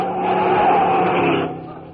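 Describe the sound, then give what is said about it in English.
A car speeding through a traffic light and nearly hitting a man: a broad, rushing engine roar that holds steady, then drops away sharply near the end. “You almost got killed. Moon on the middle. The car went right through the light.”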